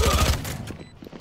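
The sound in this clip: Shotgun blasts in an online multiplayer shooter game. A quick burst of several booming shots fills the first third of a second, then trails into fainter mechanical clatter.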